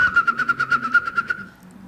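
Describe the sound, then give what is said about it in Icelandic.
A whimbrel calls with a rapid rippling trill of many even, whistled notes that run for about a second and a half, then fade away. “Þetta var spóin.”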